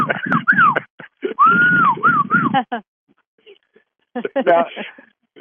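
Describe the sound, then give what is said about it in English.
A person whistles short phrases of clear notes that slide up and down, mixed with other voice sounds, followed by a pause and a few more brief sounds. “How do you whistle? Literally.”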